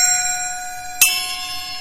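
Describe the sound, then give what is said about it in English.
A bell mounted on a drum kit rings with a sustained, bright metallic tone. Then it is struck again sharply, and its shimmering ring carries on to the end. “You have a ride cymbal, and you can have extra effect cymbals. We've got a couple of bells on here,”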